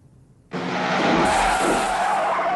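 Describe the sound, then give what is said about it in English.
Tires squeal loudly and an engine roars as a car speeds out of a garage, bursting in suddenly after a brief quiet moment and holding a harsh, sustained screech to the end. “car speeds out of the garage.”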